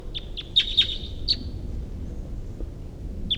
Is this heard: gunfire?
no

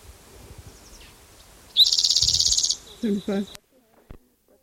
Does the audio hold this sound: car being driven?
no

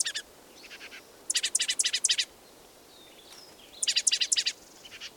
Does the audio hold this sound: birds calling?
yes

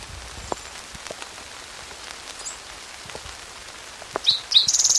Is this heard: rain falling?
yes

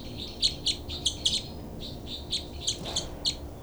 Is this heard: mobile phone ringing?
no

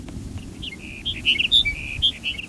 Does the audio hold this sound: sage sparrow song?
yes

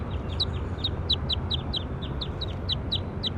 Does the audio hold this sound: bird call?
yes

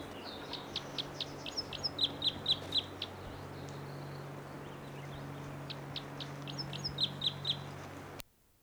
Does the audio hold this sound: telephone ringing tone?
no

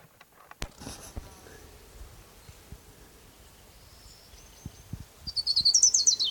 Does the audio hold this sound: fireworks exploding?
no

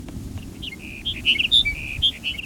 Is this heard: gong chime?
no

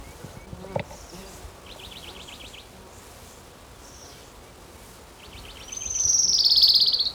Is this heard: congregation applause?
no

